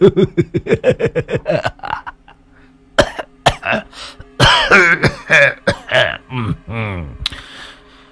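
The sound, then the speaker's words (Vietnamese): An old man in poor health coughs and clears his throat in a long run of rough, hacking bursts. First comes a quick rhythmic series, then irregular heavier coughs and throaty rasps, loud and close. “Dạo này sức khỏe không tốt, cớ làm sao mà hay ho thế.”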